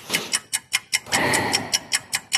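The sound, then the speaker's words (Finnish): Ticking clock timer in a quiz game, with many evenly spaced sharp ticks in a steady rhythm, briefly overlaid by a burst of broad rushing noise before the ticking continues alone. “Ja kello sitten lähtee nyt.”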